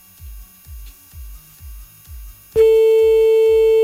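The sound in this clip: A telephone ringback tone heard while redialing a call that was cut off, a loud steady single-pitched tone that starts suddenly after a few low rhythmic thumps, which continue underneath it.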